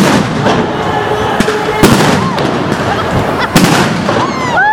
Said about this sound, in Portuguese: Várias bombas, vários tiros de bala de borracha, bomba de efeito moral, muito tiro, muita bomba.